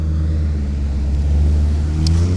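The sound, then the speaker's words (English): A truck drives by, heard as a loud, steady low engine rumble that holds for the whole moment with no voices. “Oh, and here's a truck driving by.”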